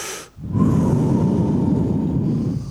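A person takes a long, steady breath in before answering, a loud, sustained airy rush lasting more than two seconds.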